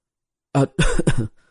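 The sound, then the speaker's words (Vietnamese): A young man chokes on food during a meal and lets out three quick, harsh, throaty coughs in close succession, then falls silent. “Văn Thiên Nam ho sặc sụa.”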